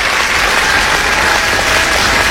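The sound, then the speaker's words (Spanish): Applause after a song, a dense, even wash of many hands clapping that holds steady and loud from start to end. “¡Qué aplausos, ¿no? ¡Qué aplausos!”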